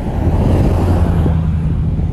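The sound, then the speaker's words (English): A big, loud vehicle passes by with a deep, rumbling low hum that holds a heavy, steady level throughout the short stretch. “here comes a big loud vehicle probably.”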